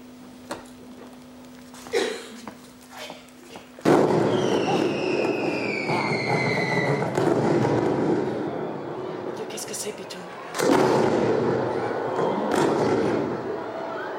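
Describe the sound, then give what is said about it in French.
Fireworks go off in two heavy bursts, each followed by sustained crackling and rumbling, with a few thin descending whistles near the first burst and a faint steady hum beforehand. “Qui explose et qui meurt, déjà? Feu d'artifice.”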